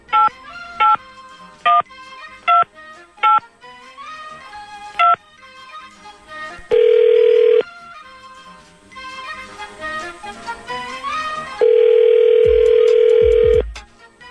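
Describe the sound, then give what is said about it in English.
Telephone dialling: six short touch-tone beeps in an uneven rhythm, then a long steady ringing tone, a stretch of other tonal sound, and a second long ring. “We're going to call him up when we come back. Dialing at random.”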